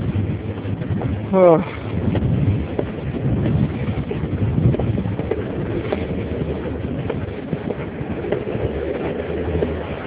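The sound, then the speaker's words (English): Wind blowing on a hill, a steady, low, rushing buffet against the microphone that continues throughout, with one brief louder gust early on. “Up the hill. Whew. And the wind's kicking up, boy.”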